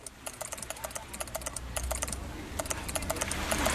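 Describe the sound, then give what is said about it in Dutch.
Busy typing on a computer keyboard by a Dutch journalist writing up an interview on an island: many quick, light clicks in a steady, uneven patter that keeps on without pause, with no voices. “Ergens op het eiland zit een Nederlandse journalist druk te tikken aan een interview dat ze de dag daarvoor had met Helmin Wiels.”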